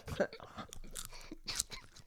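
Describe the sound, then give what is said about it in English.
Chewing of an apple cider donut from a New Hampshire farm: many soft, crunchy, moist mouth sounds in an uneven rhythm, with a couple of sharper bites standing out. The sounds are fairly quiet and there is no talking. “That apple cider donut is from New Hampshire. My lady went to like some farm. Some ASMR.”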